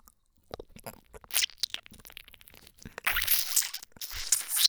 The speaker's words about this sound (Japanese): 完全に生クリーム舐めて る。